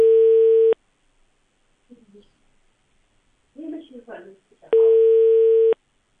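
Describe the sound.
A telephone call's signal sounds as two long, steady, mid-pitched electronic tones, separated by a few seconds of faint, indistinct voice.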